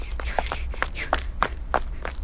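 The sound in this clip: Footsteps of people running a two-kilometre race, pushing into a final 50-metre sprint: quick, even thuds in a steady rhythm over a continuous low background.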